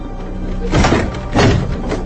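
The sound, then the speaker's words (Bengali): Someone bangs hard on a door, two heavy, dull thumps spaced apart over a low background hum. “জোরে জোরে দরজায় ধাক্কা দেয় দিবাকর”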